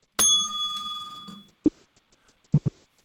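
A single bright bell ding rings out and fades over about a second, followed by a few soft knocks and taps.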